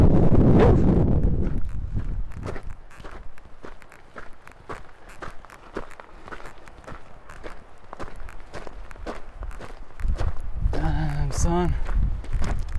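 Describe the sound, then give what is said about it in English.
Wind gusting over an open dirt trail among trees, heard as low buffeting rumbles at the start and near the end, with steady crunching footsteps throughout. “oh see and there's the wind”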